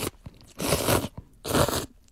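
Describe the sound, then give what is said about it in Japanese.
Someone eats thin-noodle cup noodles in a creamy white stew, making two loud, broad bursts of noisy eating separated by quieter pauses. “あ、違う音がするもんですね、うどんとヌードルとは。”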